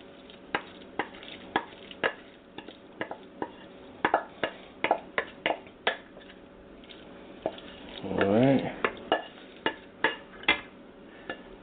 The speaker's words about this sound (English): I'm going to add our roux. Our roux and our vegetables to the top.